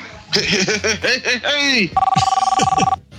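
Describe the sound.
A telephone ring tone sounds while a caller is being dialed into a group call. After a stretch of talk, a steady, rapidly pulsing tone holds for about a second, then stops.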